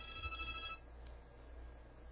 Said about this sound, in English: Oops. I have that line forwarded to my cell phone there, guys. That's not going to work. Little technical adjustment here. Stop it.